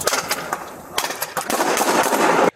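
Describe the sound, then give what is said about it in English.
Gunshots from a man firing back at officers who had shot rubber bullets: sharp, loud cracks in a rapid cluster, followed by a dense stretch of rough, noisy bangs that cuts off abruptly. “The officers shot rubber bullets at Stallings that night, and Stallings, who had a gun he was permitted to carry, fired back three quick shots.”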